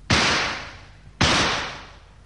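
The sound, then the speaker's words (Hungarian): Two sharp gunshots fired as signal shots by a lakeside on an 1888 African expedition. Each is a loud crack with a long fading tail, about a second apart. “Közibük lövök!”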